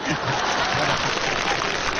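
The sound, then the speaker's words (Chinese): Audience applause during a Chinese crosstalk (xiangsheng) comedy performance, after the first sung line: thick, steady clapping that fills the short clip evenly. “头一句唱完了，朋友们就得掌声通过。”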